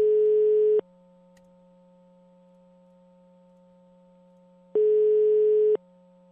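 Telephone ringback tone on an outgoing call: two steady, one-second tones separated by a long silence, with a faint low hum continuing underneath.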